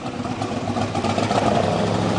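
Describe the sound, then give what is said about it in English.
A 1967 big-block Chevrolet Corvette engine idles with a deep, steady rumble and even low throbbing, with no voices over it. “So get behind the wheel of a 1967 big block Chevrolet Corvette.”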